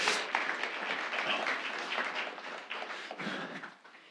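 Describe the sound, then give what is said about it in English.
Audience applause at a Sunday gathering as people are asked to give a man a hand: soft, dense clapping that stays fairly even, then thins and fades toward the end. “Would y'all give him a hand?”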